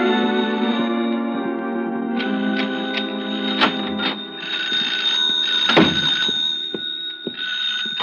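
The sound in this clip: A hotel-room telephone rings continuously with a steady, bright bell tone throughout, and a few faint knocks occur partway through.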